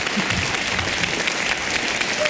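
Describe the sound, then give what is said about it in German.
Audience applause fills the whole stretch, a steady, dense wash of many hands clapping at an even loudness with no pauses. “Vielleicht eine Ausnahme mit dem Gesamtapplaus, einmal ein Applaus für Jenny Kellner”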